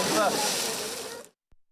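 A swimmer splashes into Bosphorus sea water, a single fizzing wash of water that slowly fades out over about a second. Silence follows, broken by one faint low knock.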